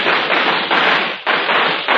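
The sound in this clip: Firecrackers lit by a small boy around the Fourth of July go off as dense, harsh crackling bursts in a rapid string, loud and continuous with a few brief breaks, and no talking over them.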